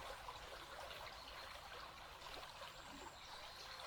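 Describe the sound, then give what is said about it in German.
Faint, steady flowing water, a soft continuous trickle and babble with no pauses or separate splashes. “Du spürst dieses Fließen und hörst es.”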